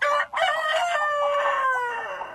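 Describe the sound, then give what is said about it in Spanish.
A rooster crows in a henhouse, one of two rival roosters competing over a hen. The crow is long, loud and strained, breaks briefly near its start, then holds to the end with no voices. “el silencio fue reemplazado por discusiones constantes entre los dos gallos, que se volvieron rivales compitiendo todo el tiempo por el amor de la gallina”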